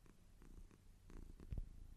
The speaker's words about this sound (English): Oh, he stopped purring. Kitty sound. Purr. I hear the purr.